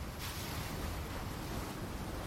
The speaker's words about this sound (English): Focus for a moment on the sea, breathing deeply as you go. The sea is a vast cerulean plain before your feet,